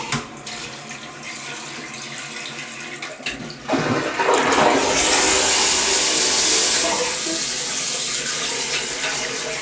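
A toilet flushes: a low, steady background gives way about a third of the way in to a loud burst of rushing, gurgling water that keeps pouring and swirling at a steady level until the end.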